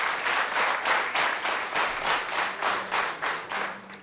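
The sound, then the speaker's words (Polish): Concert audience applause that settles into rhythmic clapping in unison, many even, regular beats pulsing at a steady tempo, loud and alone with no talk. “Oklaski poprosimy. Dziękujemy.”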